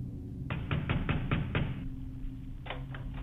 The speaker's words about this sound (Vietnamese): Không có lời đáp, chỉ là những tiếng gõ. Lần này thì mạnh cứ như là người ta đập cửa nhà mình.